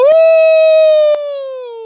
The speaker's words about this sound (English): one pack, one nation, one smooth howl